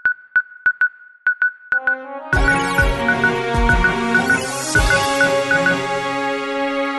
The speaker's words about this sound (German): Wollen wir schnell das Jingle einspielen? Ja. ja. Jingle einspielen.